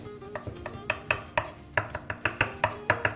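A knife chopping fresh basil on a board for a sauce: many quick, crisp taps in a steady, even rhythm, with no talk.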